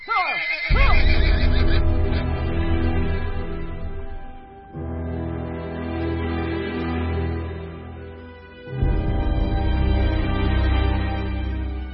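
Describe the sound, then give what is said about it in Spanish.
Restless horses neigh and whinny on a windy night road, with a loud whinny near the start. A sustained tonal sound follows in three long, loud swells. “Los caballos levantaban la cabeza y olfateaban el aire con recelo. Hacían ruidos extraños y se mostraban inquietos.”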